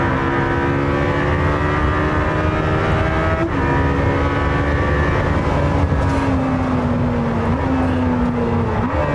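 A car with a 4-litre V8 accelerates at full throttle: a loud, continuous engine roar that holds steady throughout, with a couple of brief breaks in pitch where gears change.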